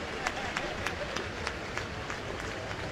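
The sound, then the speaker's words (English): A football stadium crowd rises in applause as an injured player is carted off the field. The broad crowd noise sits under a commentator's talk, with a regular train of evenly spaced sharp hits running through it. “you can hear the crowd in the background, standing ovation.”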